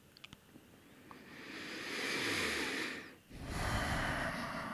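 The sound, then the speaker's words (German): Deep breathing, with a long, swelling breath that builds to a loud airy rush, a brief pause, then a second full breath; a few small clicks come first. “Wir machen das noch 3-4 Atemzüge lang.”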